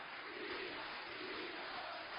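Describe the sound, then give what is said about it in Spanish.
Cheering, shouting and applause from a packed hall in the Casa Rosada in Argentina as a nationalization is announced: a dense, loud, unbroken roar of clapping and voices that holds steady throughout. “La abarrotada sala de la Casa Rosada rompen gritos y aplausos.”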